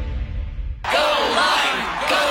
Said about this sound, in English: Everyone cheering for a fruit.